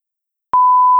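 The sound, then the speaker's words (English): A single steady mid-pitched beep, as from a phone button being pressed, lasting about half a second and sounding clearly on its own. “That was my phone. I pressed something.”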